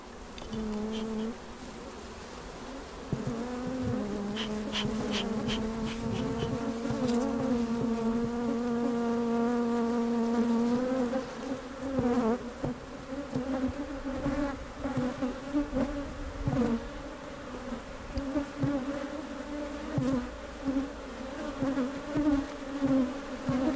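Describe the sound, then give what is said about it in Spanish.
Honeybees buzzing at an apiary in Orinda, a continuous loud humming drone from many insects that holds steady at first, then turns more uneven and pulsing in the second half. “Frida Saldívar que está rete bonito, el, el audio del apiario en Orinda”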